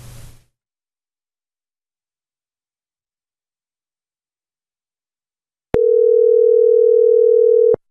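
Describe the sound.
A telephone line tone sounds as a radio caller is being connected: after a short burst of noise and a long silence, a single steady, mid-pitched tone holds for about two seconds, alone.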